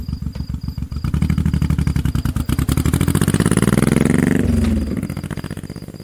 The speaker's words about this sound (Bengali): রাস্তা খুব একটা ভালো নয় তবে মোটর সাইকেলটি ভালোই চলছে